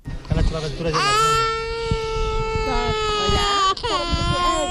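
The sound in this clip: A toddler nearly two years old cries loudly in sustained, wailing sobs, with a brief catch of breath near the end before the crying resumes.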